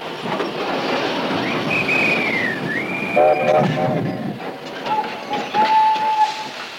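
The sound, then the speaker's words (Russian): An armored train near a wartime front pulls into a station in a radio drama effect. Rolling rumble and rail clatter sound under a long wavering whistle, then shorter whistle tones. “И по чистой случайности на станции Гребешки остановился бронепоезд командарма Седых.”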